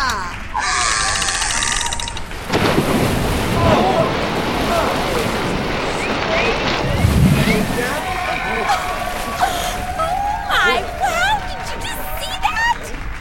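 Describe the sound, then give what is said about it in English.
Big splash as an orca is dropped into a large empty water tank before a studio audience, bursting into a loud, sustained rush of sloshing water. “did they just drop that orca into that big empty tank?”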